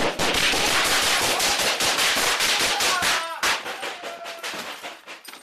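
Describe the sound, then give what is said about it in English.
Gunfire exchanged between a shooter and police officers inside an apartment complex: a loud, dense barrage of many rapid shots that overlap for about three seconds, then continue as sparser, separate cracks. “started shooting. The officers shot back.”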